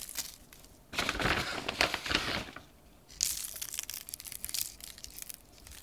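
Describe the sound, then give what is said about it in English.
Coarse pretzel salt, pressed into little balls, sprinkled by hand onto pretzels, especially their bellies: a dry, crackly granular patter in two sustained bursts, fairly faint, with no voices. “It's some kind of thing that's been like pressed together into little balls of salt. And I'm gonna sprinkle the pretzels, especially the bellies.”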